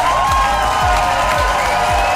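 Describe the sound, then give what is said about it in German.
Applause from the audience at the German Entertainment Award ceremony, held at the Karlsberg in Mülheim. The clapping is loud and unbroken, with a regular low thump repeating beneath it. “Ja, großen Applaus gab es unter anderem für die Formate Heute Show Extra und für das ARD-Reality-Format Werwölfe.”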